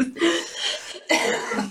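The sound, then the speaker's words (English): Harsh, raspy coughing from a person whose allergies are acting up, in two long bursts separated by a brief gap. “Sorry, my allergies are bothering me today. I don't mean to wheeze on the podcast.”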